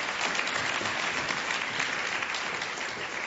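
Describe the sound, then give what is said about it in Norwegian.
Sustained applause from an audience at a business event, a thick, even wash of clapping hands at steady volume with no pauses. “Gi en klapp til.”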